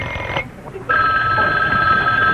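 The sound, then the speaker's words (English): A telephone rings with a loud, steady electronic tone that holds continuously to the end, after a short quieter stretch at the start. “Oh, the phone.”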